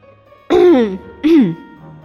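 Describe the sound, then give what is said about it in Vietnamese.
A light cough voiced by a person imitating it: two short, throaty bursts separated by a brief pause, each with a falling pitch, the first slightly longer. “Lô Phương ho nhẹ một tiếng, nhắc nhở Bạch Ngọc Đường và Triển Chiêu.”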